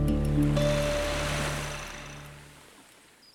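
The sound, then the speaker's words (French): Sea washing around a sailboat underway, bound south toward Cape Verde: a steady broad rush of water over a low tonal hum, slowly fading toward the end. “Toujours en direction du sud, à bord du chasse spleen, nous faisons route sur le Cap Vert.”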